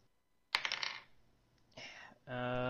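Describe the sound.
An orange die is rolled during a tabletop fantasy role-playing game, clattering in a quick burst of rattling clicks, then giving a second, shorter rattle a moment later.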